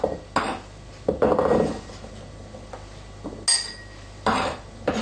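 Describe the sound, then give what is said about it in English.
Cucumber, tomato and cubed goat cheese are arranged in a bowl, producing a series of clinks and knocks of dishes and utensils, some sharp and some muffled, separated by short pauses. “Now we put all this in a bowl. And it's done. Simple as that. Arrange it in a bowl.”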